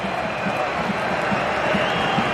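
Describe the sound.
Home fans at a league match applaud a substituted player. The broad, steady crowd noise carries soft low thumps that repeat at a regular beat.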